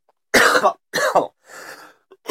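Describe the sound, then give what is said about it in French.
A deliberate, strategic cough, done on purpose, comes as a few rough, throaty bursts. The first two are loud and the third is softer, with a short catch at the end. “Bon, alors voilà, ça c'est ce qu'on appelle une toux stratégique.”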